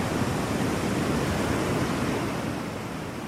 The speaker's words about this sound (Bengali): সমুদ্রের আওয়াজ। সমুদ্রের আওয়াজ আমার কাছে অনেক প্রিয়।